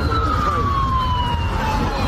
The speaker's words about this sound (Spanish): Este es el sonido de las sirenas de las ambulancias que han acudido hasta la estación donde ha parado el tren en el municipio de Huntingdon, en el condado Cambridgeshire, al este de Inglaterra.